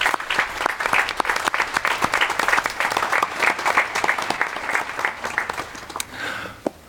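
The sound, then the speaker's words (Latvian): A church audience applauds people who have received the sacrament of confirmation. Many separate hand claps stand out within moderate applause, which continues for several seconds and then dies away at the end. “Tad, protams, mēs gribam uzgavilēt visiem, kas ir saņēmuši iestiprināšanas sapramentu.”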